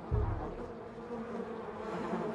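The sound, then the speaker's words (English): Wasps swarming over a glass panel above a kitchen door produce a continuous, dense buzzing drone. It is fairly faint and holds steady from start to finish, with no voices. “Wasps cover the glass panel above the kitchen door as Heather approaches it.”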